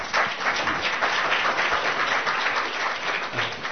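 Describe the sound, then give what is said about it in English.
Audience applause: dense, steady clapping from many hands that holds at an even, loud level throughout, with no voices standing out above it. “unfortunately, that's an applaudable event now.”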